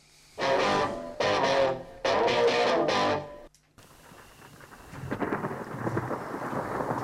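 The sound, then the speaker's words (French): A rain and thunder sound effect at an improv theatre show: three loud rumbling thunder bursts in quick succession, then a steady rain patter that grows louder. “Bon, bah il pleut. T'es sûr qu'il pleut?”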